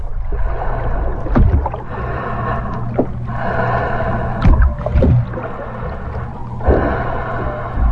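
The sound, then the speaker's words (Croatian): Waves break on a shore while loud, close breathing carries through. A continuous rushing wash swells into a few stronger surges, with gasping breaths among them. “Čujem razbijanje valova o žalo. Moj dah, koji inače ne čujem, postaje glasan.”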